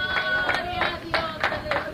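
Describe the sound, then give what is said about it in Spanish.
Congregation applauding in church, clapping in a steady rhythm of roughly evenly spaced bursts over sustained tones. “¡Fuerte aplauso al Señor, hermanos!”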